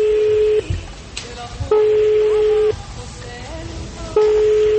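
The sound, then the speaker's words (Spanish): A telephone call is placed and the line rings back with a steady, single-pitched tone, heard as about three long pulses separated by gaps, while voices talk over the pauses. “¿Podemos marcarle, por favor? Marquémosle. Acá le estamos marcando.”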